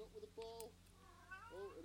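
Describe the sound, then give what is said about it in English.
A cat's meows, a few drawn-out tonal cries heard at home, moderately loud with quieter pauses between them. “Look at the cat.”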